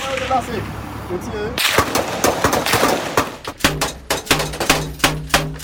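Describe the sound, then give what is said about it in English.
Gunfire rounds striking an armored vehicle during a gang gunfight with police: many sharp, loud cracks and metallic impacts, tightly packed at first, then coming as separate hits at a steadier rhythm. “Rounds hit the armored vehicle.”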